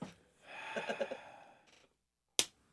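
A person sniffs a beer and then lets out a long, voiced, groaning exhale lasting about a second. A single short, sharp click follows, and the whole clip is faint.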